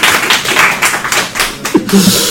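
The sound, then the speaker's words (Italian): Audience applause at the start of a lecture: light, uneven clapping with separate sharp claps and taps rather than a full ovation, loud but thin, with a short voice sound near the end. “Questo è un applauso a voi.”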